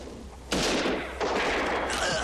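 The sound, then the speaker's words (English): Gatling gun fire in a film soundtrack bursts in abruptly as a loud, dense, continuous volley of rapid shots, dips briefly, then surges back just as strong and keeps roaring. “See, I like this part with the Gatling gun. That's cool.”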